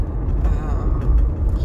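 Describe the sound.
A car driving on a rough, uneven road gives a loud, steady low rumble that shudders and fluctuates with the bumps.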